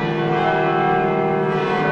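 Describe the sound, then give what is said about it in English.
Church bells at a cathedral basilica in Denver ring out to celebrate the announcement of a new pope: a dense, loud, continuous wash of overlapping bell tones that sustains throughout with no talk. “And those are the church bells at Cathedral Basilica in Denver. They're celebrating the announcement of the new pope.”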